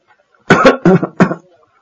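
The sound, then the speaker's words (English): Harsh, hacking coughs from a heavy smoker: a quick run of a few loud, rough, throaty bursts packed into under a second, with no other voices. “What's wrong with you? The cough? I smoke too much, I think. That sounds like a really bad cough.”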